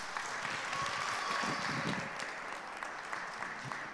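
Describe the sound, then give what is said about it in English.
Audience applause in a church service welcoming a speaker to the front: steady, moderately loud clapping from many hands that continues evenly for several seconds without talk. “let's put our hands together just to give him a warm renewal welcome”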